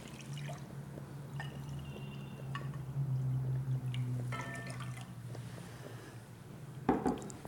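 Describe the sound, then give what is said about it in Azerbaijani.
A glass of water is poured into food being cooked, a soft, quiet splashing trickle that runs for several seconds before a brief clatter near the end. “su bardağı su əlavə edirik.”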